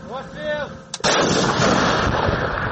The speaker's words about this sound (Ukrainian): Чтобы разрушить такие укрепления и помочь своей пехоте наступать, украинские военные используют в том числе пионы.